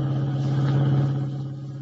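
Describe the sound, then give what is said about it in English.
Steady low engine drone of a car being driven, a constant rumbling hum that holds throughout and eases slightly near the end, with no voices. “Kent and White dashed out, and as we join them now, they are driving the revived but still weak Jim Olsen back to the Daily Planet.”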